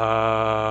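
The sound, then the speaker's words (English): A human voice produced by loosely vibrating vocal cords holds one steady buzzing tone at a constant pitch. The sustained sound is rich in harmonics, brief and evenly loud throughout. “Those are vibrating vocal cords.”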